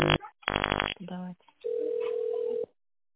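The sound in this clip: Telephone line tones: a few short harmonic bursts give way to a steady single-pitch tone held for about a second, then silence.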